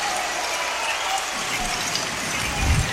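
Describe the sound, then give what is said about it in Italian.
Crowd applause at a basketball game in the Beta Ricambi Arena, where the home side Givova faces Virtus Segafredo. A continuous, rattling wash of many hands clapping swells a little louder near the end. “solo applausi per i propri beniamini.”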